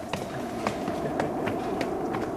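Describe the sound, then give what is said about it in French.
Footsteps climb a red staircase leading to a studio: many light, evenly spaced taps over a steady humming background. “Eh bien allons-y, on va monter cet escalier rouge qui nous mène au studio.”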